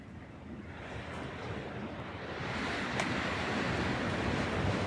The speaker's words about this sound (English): Here comes the wind, uplifting us.